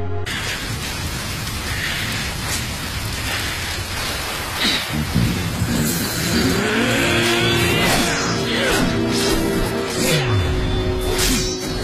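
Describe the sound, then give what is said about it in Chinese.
A sports car speeds along, its engine note climbing in pitch through the second half as it accelerates, over a constant dense, loud hiss. “我的跑车加李刚的儿子，一定能够在五分钟之内到达。”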